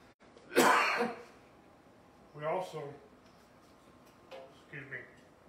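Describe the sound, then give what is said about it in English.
A man coughs three times while trying to clear his throat, rough, raspy bursts with the first loudest and the last faintest. “Trying to get this down my throat so I can speak. Alright, I rebuke this cough so I can speak in Jesus' name.”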